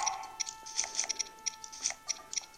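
Link eating food in a Zelda video game: many quick, faint, crunchy chewing clicks in an irregular rhythm over a soft, steady tone.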